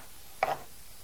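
A knife cuts bacon into small pieces. A single brief, soft, crisp chop lands on the board, alone against a quiet background.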